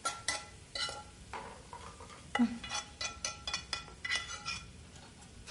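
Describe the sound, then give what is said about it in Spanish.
Cooking lutefisk in a pan brings faint metallic clinks and scrapes of utensils and cookware, a steady string of light taps and stirring with no voices. “¿Qué estás cocinando? Lutefish.”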